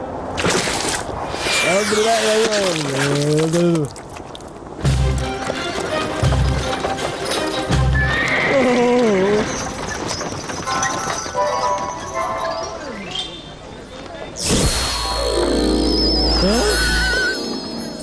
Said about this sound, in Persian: حبیب که در سرک پر از ازدحام با اسبهای گودی خود رسیده بود، سرعتش را کم کرد